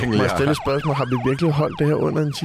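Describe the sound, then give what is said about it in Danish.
Ambulance siren played as a jingle: a loud, rapid wail that keeps rising and falling in pitch, with people talking in Danish over it. “Jeg har valgt en anden jingle til dig. Det er lyden af en ambulance,”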